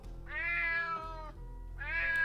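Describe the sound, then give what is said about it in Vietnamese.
A cat meows in the night: two drawn-out, wavering cries, the first long and the second cut off at the end, over a low steady hum. “Tiếng mèo kêu vang vọng trong đêm tối kéo Trung Đạt”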